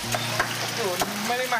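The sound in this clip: Chicken frying in hot oil hisses with a steady, dense sizzle throughout, broken by a few sharp clinks as the pieces are stirred in the pan at a busy fried chicken stall run by a married couple.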